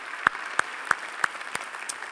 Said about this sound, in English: Let's give all those people out here a big hand.